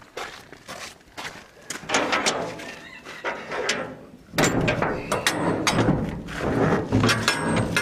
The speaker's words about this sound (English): let me get the door open.